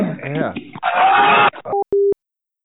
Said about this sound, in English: what is that beep? I'm sorry? What was that beeping?